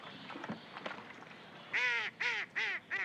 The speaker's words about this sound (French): Il jette du pain au canard.